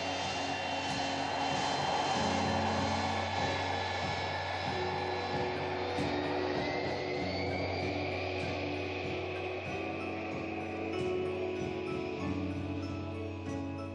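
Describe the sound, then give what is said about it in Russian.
Aeroflot airliner engines roar as the plane begins its takeoff run. A loud, steady drone carries a high tonal whine that climbs in pitch partway through. “Самолет начинает разбег.”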